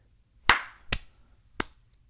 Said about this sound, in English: What is this? Like a slow clap? I want to give five claps.